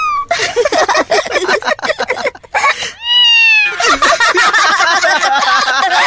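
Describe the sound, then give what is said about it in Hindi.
Kitten meowing in a classroom: high, loud, repeated meows with gliding pitch, some drawn out, packed close together across a busy, dense stretch. “ये बिल्ली की आवाज अपनी class में कैसे?”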